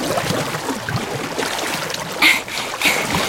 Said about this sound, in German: Ich paddel jetzt schon richtig schnell.